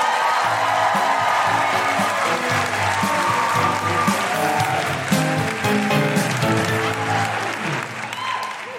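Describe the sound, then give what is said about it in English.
Audience applause and cheering welcome a comedian at a live feminist comedy show in Adelaide. Loud, sustained clapping mixes with whoops and holds steady before easing slightly at the end. “Put your hands together and make incredible Guilty Feminist Adelaide welcoming noises for the wonderful Geraldine”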